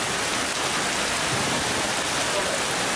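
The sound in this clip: Heavy rain pours down in a severe storm that flooded streets and buildings. It makes a dense, steady, loud hiss with no breaks.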